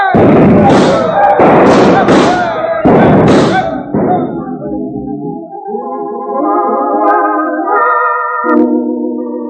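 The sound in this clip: Pistol shots, revolvers fired at a target in a street, crack out as a few loud, heavy bangs in quick succession at the start.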